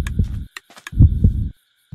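A heartbeat sound effect in a Minecraft game on a spooky difficulty mode thumps as heavy, low, muffled pulses in repeated bursts with short quiet gaps, joined by faint higher clicks.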